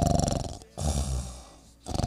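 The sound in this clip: A voice imitates snoring: short voiced bursts frame a longer, rough, growling breath of about a second, in a brief, fairly loud stretch with no other talk.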